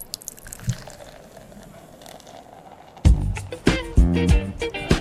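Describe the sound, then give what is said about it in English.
A bottle of Slow Elk oatmeal stout is opened and poured. A quiet stretch with a small click gives way to loud, bubbly gurgling and glugging as the beer flows out. “I just want you to sit back, relax, pop a bottle. Let's do it.”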